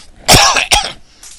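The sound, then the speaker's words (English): Two harsh coughs from a man in quick succession, the first longer and louder, the second short and sharp, with no talk over them. “excuse me, I'm coughing and I have cough drops. I need to take one.”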